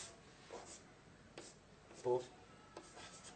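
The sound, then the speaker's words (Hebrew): Faint scratching strokes of a pen drawing a diagram, a few brief rubbing marks with one slightly louder stroke near the middle, set against quiet background hiss. “תכף תבינו למה אני מצייר אותה פה, למרות שאני צריך לצייר אותה בצד האמת.”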